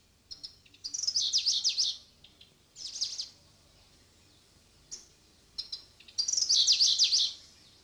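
Birdsong recorded close up with a plain microphone and no parabolic dish: high, bright trilled phrases in several bursts, with two long rolling trills and shorter chirps and notes between them, separated by quiet gaps.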